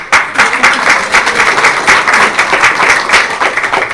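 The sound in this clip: Audience applause at a devotional gathering: dense, steady clapping from many hands fills the whole stretch at a fairly loud, even level, with no voices rising above it.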